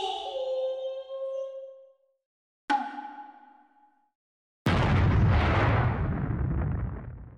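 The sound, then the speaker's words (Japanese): Explosion when a secret gacha unlocks in a video game: a chime-like tone, then a sharp hit with a ringing decay, then a loud, sustained roaring blast. “なーにこれ、なんで爆発しちゃうわけ。”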